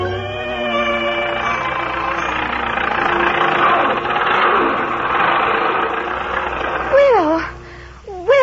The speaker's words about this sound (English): Why, Will. It's an automobile.